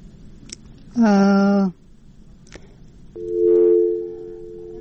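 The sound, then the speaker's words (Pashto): Telephone line tones as a caller is cut off during a radio call-in: a short buzzy tone, then after a pause a longer, steady lower tone running to the end. “د دوی د ټلیفون لاین کټ شو.”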